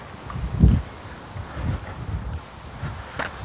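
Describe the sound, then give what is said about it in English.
Brisk wind funneling down a street buffets the microphone in low, rumbling gusts, with one strong burst near the start and softer surges after. “That wind is brisk. It's funneling right down the street.”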